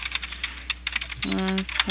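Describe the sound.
Rapid clicking of typing on a computer keyboard, many quick keystrokes, faint and thin. A voice briefly sounds partway through.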